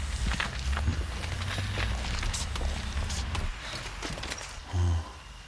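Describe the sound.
Footsteps walking into a house through an open front gate, many steady steps over a continuous noisy background, with a short low hum near the end.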